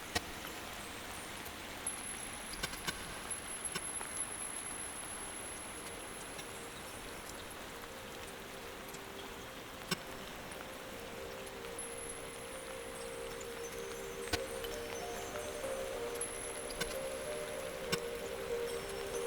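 Rainwater dripping on a rainy day: a few sparse, sharp drip ticks spaced irregularly over a soft, steady hiss.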